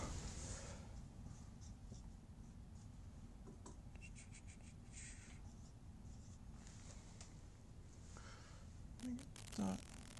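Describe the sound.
Faint scratching of a pen writing notes on paper, with soft, irregular strokes over a low hum and a couple of brief, louder scrapes near the end.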